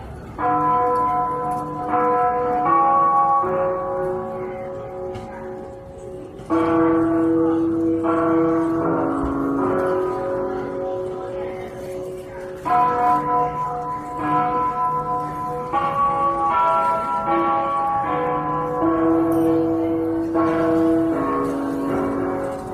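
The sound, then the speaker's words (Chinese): Clock bells at Beijing railway station chime after the hourly time signal, loud, sustained ringing tones stepping through a slow melody, with no talk. “它曾出现在北京火车站整点报时后的钟声里，”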